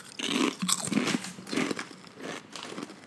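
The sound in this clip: Crunchy bites into sour cream and onion flavoured snack chips, with a few loud, crackling crunches in a loose rhythm and quieter chewing between them, heard alone.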